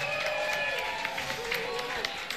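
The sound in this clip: An audience applauds after a band's live set at the second edition of Altrovi Festival in Vicenza. Steady, moderately loud clapping runs throughout, with some voices mixed in.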